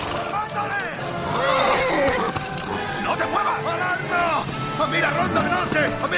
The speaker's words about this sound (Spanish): De pronto, aparecen dos caballeros montando a caballo que se disponen a salir. El sicario apunta con su ballesta y dispara. Uno de los jinetes cae al suelo con el animal.